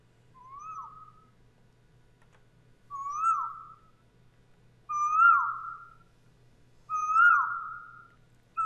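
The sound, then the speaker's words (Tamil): Calls of a koel, a kind of cuckoo: four clear whistled notes spaced about two seconds apart over a quiet background, growing slightly louder, with another call starting at the end. “குயில். இதன் இனிமையான குரல் வசந்த காலத்தின் தூதுவன் என்ற அடையாளம் அனைவரும் அறிந்ததே.”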